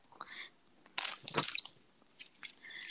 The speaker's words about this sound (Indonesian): Sumpah, gue makan Nextra enak banget. Gue baru tau Nextra ada yang hijau, anjir.